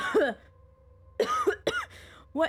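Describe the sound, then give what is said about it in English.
A voice imitates coughing for a character caught in smoke during a tabletop role-playing game, giving a few short, rasping, voiced bursts separated by pauses over a low steady hum. “he starts like coughing and waving smoke out of his like face”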